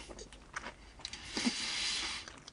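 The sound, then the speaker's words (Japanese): Chewing on a vanilla-flavoured macaron: a few soft, crisp crunches, then a longer, louder crumbly rustle in the middle as the shell breaks down, with no talk. “令和バニーユ、バニーユ味ということで。まあでも形は普通のマカロンですね。”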